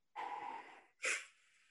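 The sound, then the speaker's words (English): A voice imitates a football player's heavy breathing after a bad play: one long, rough breath in, then a sharper, louder breath out, both fairly faint. “Can you give me your impression of him breathing after things did not go well on a particular play?”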